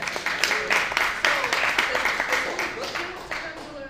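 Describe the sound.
Audience applause for a comedian, dense crackling claps at a fairly loud, even level that eases off slightly toward the end.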